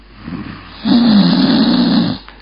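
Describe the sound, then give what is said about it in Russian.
Snoring comes from behind gauze netting: a single loud, rasping low drone lasting over a second, preceded by a fainter, shorter rasp, with no voices. “стал слышен доносящийся из-за марли храп”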